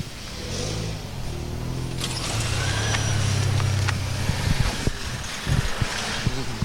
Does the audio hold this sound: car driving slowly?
yes